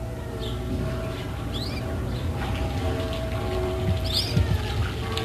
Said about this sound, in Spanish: Este es el ambiente sedante y plácido de un pequeño jardín. Una esquila lejana en el horizonte. Cantos de pájaros. Y este ruido apacible, manso, del agua fluyendo en una fuente.